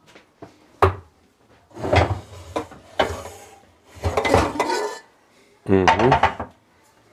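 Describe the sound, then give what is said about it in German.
A large cooking pot is taken out of a cupboard and set on a stove, making several separate knocking, clattering and scraping bursts in an uneven rhythm, with brief talk alongside. “Jetzt stellen wir einen großen Topf auf. Ja. Der ist schon sauber.”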